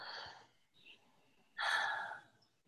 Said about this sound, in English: I'm going to take a deep breath and pause. And just release.